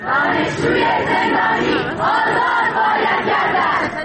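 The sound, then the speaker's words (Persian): University students chanting protest slogans at a Student Day speech by Iran's judiciary chief, loud massed voices shouting rhythmic phrases in unison, surging in repeated waves with brief dips between them. “گروهی از دانشجویان در کنار شعارهایی به حضور آقای رئیسی هم اعتراض کردند.”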